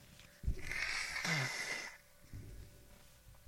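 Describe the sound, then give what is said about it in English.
Someone blows their nose: one forceful, honking blow with a wet rasp, followed by a shorter, softer snuffle, fairly quiet overall. “Excuse me, how to blow the nose.”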